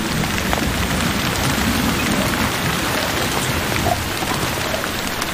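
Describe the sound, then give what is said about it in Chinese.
Heavy monsoon rain pours down in a dense, continuous hiss, steady in loudness throughout, with no voices. “玛雅必须先度过季风季节，三个月来几乎连续不断的下雨。”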